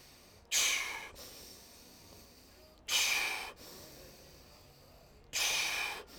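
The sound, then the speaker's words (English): Forceful, hissing breaths from an aggressive breathing exercise of long inhales and short exhales, with three loud, breathy bursts evenly spaced by quieter gaps. “So it's a long 3 second aggressive inhale and then a short exhale.”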